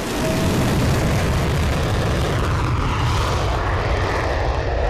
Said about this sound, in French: Il embarque, se positionne en bout de piste, en lien avec la tour de contrôle. Puis il décolle.